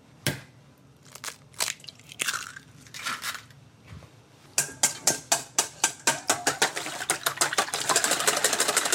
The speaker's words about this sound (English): Meantime, I'm gonna crack and whisk our eggs.